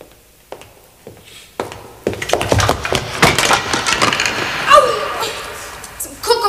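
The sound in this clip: Wooden crates topple over with a loud clattering crash, followed by a burst of knocks, splintery cracks and thuds that continue for several seconds.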